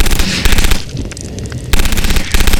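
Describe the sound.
Machine gun firing in a video game: loud, rapid automatic bursts with a dense rattle, broken by a brief quieter stretch before the fire resumes in further sharp bursts.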